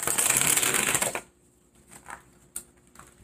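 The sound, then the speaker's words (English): Playing cards riffled and shuffled from a deck during a tarot-style card reading: a dense, loud papery flutter for just over a second, then a few soft, faint card slides and snaps. “All right, so I'm going to take eight cards. After I get the eight cards, I'll tell you what they are.”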